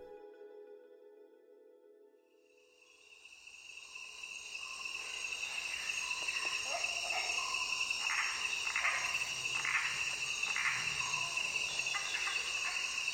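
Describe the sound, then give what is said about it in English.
A dense chorus of crickets and other insects recorded in a natural habitat: a steady, shrill buzzing that swells in after a quiet opening and then holds loud and unbroken. “That's the sound of the Great Animal Orchestra, an audio-visual experience of animal sounds recorded in natural habitats around the world by the American soundscapist and ecologist Bernie Krause.”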